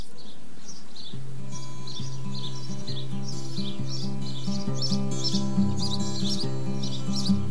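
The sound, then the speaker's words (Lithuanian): Small birds chirp and twitter in many quick, high bursts throughout, over a steady, low musical bed of sustained tones that shift in step-like notes. “Tai aš labai norėčiau, kad mūsų paskutinį laidoj mes tą tokį gražų paukščiukų čilbėjimą ir išgirstume ir taip atsisveikitume iki sekančių kelionę. Taigi pasiklausykime tos gražios giesmės.”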